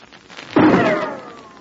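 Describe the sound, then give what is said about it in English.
A single rifle shot cracks out across a snowy valley on a moonlit night. The sudden loud burst is followed by a long fading tail with a faint whine that falls in pitch. “Did you hear that rifle shot?”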